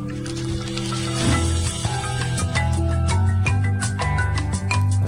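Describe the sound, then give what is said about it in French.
Music from the video game Monkey Island plays alone, a steady tonal melody over low sustained notes with bright plucked accents that grow busier toward the end. “Monkey Island. Oui. C'est quoi ce jeu Monkey Island.”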